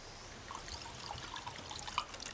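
Wine being poured into glasses makes a faint, continuous liquid trickle over a soft background hiss, without voices.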